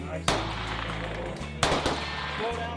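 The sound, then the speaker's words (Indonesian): Gunshots at a shooting range in central Utah, where teachers train with police: two loud, sharp gun blasts, each with a brief booming tail, separated by about a second and a half. “Mereka berkumpul di tempat latihan menembak di kawasan tengah Utah.”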